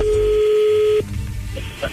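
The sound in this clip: A telephone tone sounds while a call is being joined. One steady, mid-pitched tone holds for about a second and then cuts off, followed by a few faint clicks and soft line noise.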